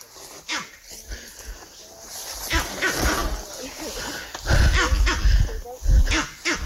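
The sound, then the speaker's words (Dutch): Monkey barking calls from a tree in an outdoor field recording: a few sharp, rough barks over constant rustling noise, with the loudest calls near the end. “Daar hoor je de apen ook echt op de achtergrond.”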